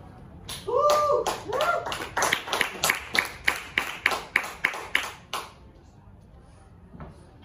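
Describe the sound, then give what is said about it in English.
Applause from a stand-up comedy audience as the next comedian takes the stage, building into a steady, evenly spaced run of loud claps that then stops abruptly, leaving near quiet. “Give it up for Nancy.”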